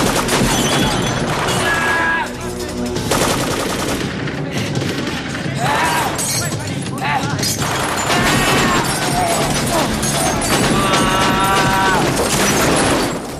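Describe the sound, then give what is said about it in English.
Sustained heavy gunfire rings out as two guns fire in a shootout inside a dusty room. The shots are dense, loud and nearly continuous, with crashing impacts mixed in throughout and no pause. “Alex breaks cover and points both his guns directly at the two men, firing a round of shots. The man who opened fire goes down. There are clouds of dust in the room. Glass jars break”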